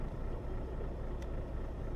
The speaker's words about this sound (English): So I'm going to start up the truck here.